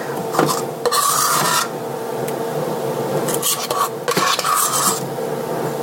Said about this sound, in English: Okay, now I'm getting the topping, and I'm starting to put it on the very top.